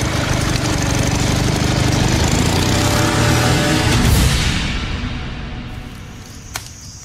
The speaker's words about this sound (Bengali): ঠিক এই সময় ভুট ভুট আওয়াজ করতে করতে একটা মোটর বোট তীব্র বেগে এগিয়ে আসতে লাগলো তাদের দিকে।